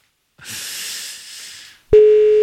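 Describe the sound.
A ringback tone sounds on an outgoing telephone call, a steady single-pitch tone that starts abruptly and holds to the end, after a soft breathy hiss.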